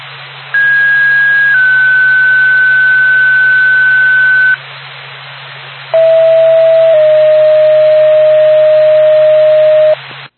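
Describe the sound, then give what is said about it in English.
An emergency dispatch alert tone for EMS and ambulance crews sounds as two loud sustained tones of about four seconds each, a higher one and then a lower one, separated by a short gap with a faint low hum beneath. “NORPAC, Dillman EMS, Lancaster Ambulance, standby for tone.”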